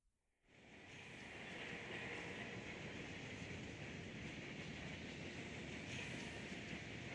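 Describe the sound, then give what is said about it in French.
A tram from a fantasy video game starts to move: a steady, broad rumbling whoosh swells up within the first second and then holds evenly, with no voices. “monte dans le tram et imagine-le démarrer.”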